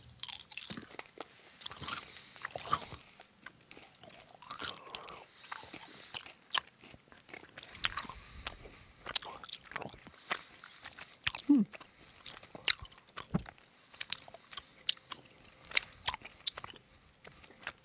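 People chew crunchy fruity candies, producing many irregular, fairly quiet crunches and bites with soft mouth noises between them.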